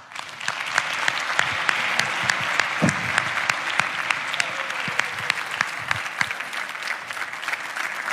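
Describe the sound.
Applause from a chapel audience welcoming a guest speaker at a morning service: dense, steady clapping that holds at an even level for about eight seconds with no break.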